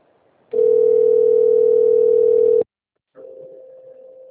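Telephone ringback tone on a call: a loud, steady mid-pitched tone lasting about two seconds, then a short silence, then a second, quieter tone that begins and runs to the end.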